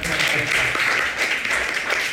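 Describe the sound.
Audience applause at a Vietnamese-language motivational talk: a steady, continuous wash of clapping that holds at an even level for about two seconds.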